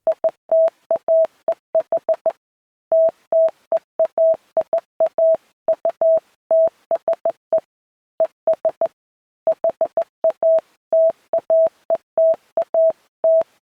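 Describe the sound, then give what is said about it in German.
Morse code beeps played aloud at a slow pace: a steady mid-pitched tone keyed in many short and longer beeps, grouped into runs separated by brief pauses, with no talk. “jetzt spiele ich dir mal was vor, nämlich, ich hoffe, du hörst es, ich mache mal laut, ein Morsecode.”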